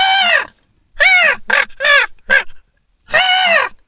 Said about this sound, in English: which is also a raven call